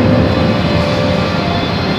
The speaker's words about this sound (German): Drinnen gibt es eine Freizeit-Rennstrecke, eine Go-Kart-Bahn, auch ein Rallye-Parcours und auch eine Drag-Racing-Piste. Ziemlich laut geht's dazu. Hören wir mal rein.